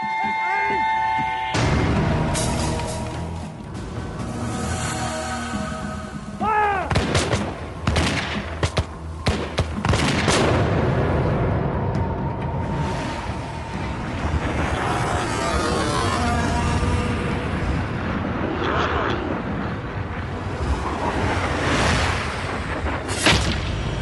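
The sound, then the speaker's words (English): Gunfire sound effect depicting the first shot at Lexington, with dense, continuous volleys of shots and heavy booms throughout, loud and rolling, and voices mixed in. “No one knows who fires the first shot at Lexington. But it's the shot heard round the world.”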